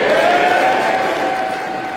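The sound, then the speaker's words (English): Conservative members of Parliament banging tables and cheering in approval after a secret confidence ballot result, a dense, loud, continuous roar that eases off slightly toward the end. “Conservative members of Parliament banged tables and cheered last night in approval at the result of their secret ballot.”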